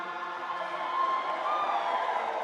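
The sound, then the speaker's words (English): Cheering from a crowd in Uganda's parliament as a bill passes, a steady, fairly faint wash of many voices that holds without breaks for a couple of seconds. “So the headline there is cheers and applause as Uganda passes bill banning identifying as a homosexual or transvestite.”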